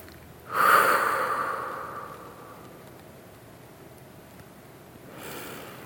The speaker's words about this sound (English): I invite us all to take a slow, deep breath of integration right now.